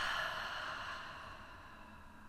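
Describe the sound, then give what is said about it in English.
A deep breath exhaled slowly during a guided relaxation exercise: one soft, airy whoosh that fades gradually over about two seconds, quiet and heard alone. “Let's do one more deep breath in. And exhale.”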